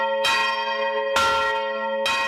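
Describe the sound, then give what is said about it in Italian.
The Bargello tower bell in Florence, called the mattinella, tolls the signal for a general uprising. Three loud, evenly spaced strikes come about a second apart, each followed by a long, resonant metallic hum. “Alle 6.45 la campana del Bargello, la mattinella, suona il segnale dell'insurrezione generale.”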